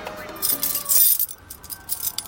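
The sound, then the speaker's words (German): A key from a key ring unlocks a rusty iron gate with bright metallic jangling and clinking, loudest midway, then thinning to lighter scattered clinks. “Der Anführer der Gang schloss es mit einem Schlüssel auf, den er an einem Bund bei sich trug.”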